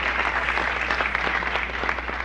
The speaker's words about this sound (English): This is Nixon, Brezhnev. Everybody's clapping.